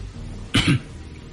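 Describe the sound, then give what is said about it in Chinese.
A man coughs once, a short, rough burst with a double pulse, standing out clearly above a low, steady background hiss. “陈独秀咳嗽了一声，慢慢地从兜里摸出一根雪茄。”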